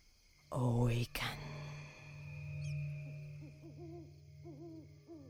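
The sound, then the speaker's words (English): Owl hooting outside at night: after a brief loud breathy burst, a few soft, wavering hoots follow faintly over quiet background. “crickets outside, and an occasional owl.”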